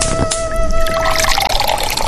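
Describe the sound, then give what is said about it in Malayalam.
Plain water poured into a clay cooking pot set on the stove, a steady splashing trickle that runs for about two seconds without a break. “അതിലേക്ക് കുറച്ച് പച്ചവെള്ളം ഒഴിച്ചു കൊടുക്കുക കേട്ടോ.”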